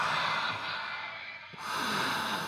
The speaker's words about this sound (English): In and out. Breathe in and breathe out. Please. Breathe in and breathe out.